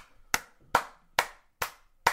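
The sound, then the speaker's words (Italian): Five slow, evenly spaced hand claps ring out alone, each sharp and crisp with silence between them. “Applausi.”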